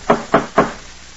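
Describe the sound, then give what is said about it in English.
Three sharp, evenly spaced knocks from a fancy door knocker, each a crisp wooden rap, followed by a short silence. “Funny they'd have a fancy door knocker like this way up here. Nobody answers. Perhaps there's no one here. Well, that's possible, but I've got an idea there is. I'll give it another try.”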